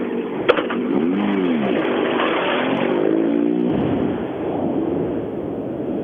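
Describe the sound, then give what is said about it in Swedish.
Engine roar of a two-wheel-drive competition car driven hard through bends. The revs climb in several rising sweeps before cutting off sharply, leaving a steady, loud mechanical drone with no voices. “Ja, han kör oerhört hårt Eh, Simon Karlsson och eh, hittills då har det gått rätt så bra, snabbast i den tvåhjulsdrivna klassen.”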